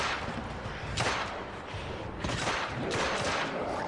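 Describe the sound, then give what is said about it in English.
Video game gunfire from a werewolf and zombie shooter demo at a press conference, heard as dense, loud, noisy bursts. A few sharper blasts stand out over a continuous roar of fire. “Why do you use a pistol when you need a machine gun?”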